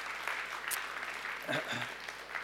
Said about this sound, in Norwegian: Ja, gi en applaus for det. Det synes jeg fantastisk.